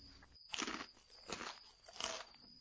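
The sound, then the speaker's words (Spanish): A bear eating gives crisp crunching chews in three short, evenly spaced bursts, faint and with no other sound. “Y con su permiso, voy a seguir comiendo.”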